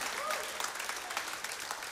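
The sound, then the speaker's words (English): Applause from a church audience after a closing prayer: steady, dense clapping that holds at a fairly faint, even level throughout. “I guess I have to wait for the applause.”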